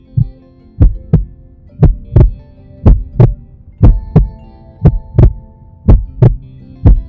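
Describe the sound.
Heartbeat heard through a mother's chest: low, booming thumps come in a steady run of paired beats, loud and regular over a faint continuous hum.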